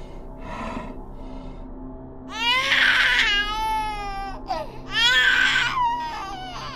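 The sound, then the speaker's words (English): A creature mimics a baby's cry with two loud, wavering wails, bright and high-pitched, separated by a short pause, over a low steady hum and a few fainter earlier sounds. “Then I watched as the sound of a baby cry came from the creature's mouth.”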